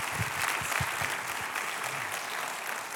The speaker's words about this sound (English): would you put your hands together and welcome back to our stage, Pastor Brian Bigger.